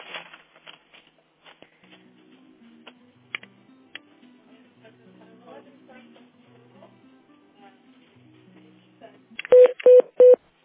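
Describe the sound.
Touch-tone beeps sound as a telephone number is dialed to connect an office call. Three short, bright tones come near the end, after a stretch of faint clicks and low background voices.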